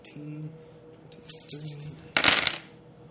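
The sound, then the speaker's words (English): Dice rolled during a tabletop roleplaying game for a damage roll: a few light clicks, then a loud burst of clattering that rattles briefly and stops. “Rolling dice is fun.”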